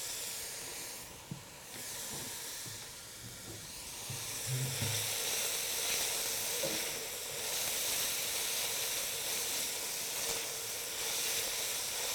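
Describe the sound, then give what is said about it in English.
Vegetables sweating in a pan, seasoned with salt and pepper, give off a soft, continuous sizzle and hiss. A few faint knocks rise now and then above the steady frying. “We refer to this as sweating them, and we're really just trying to cook those until they're translucent or tender.”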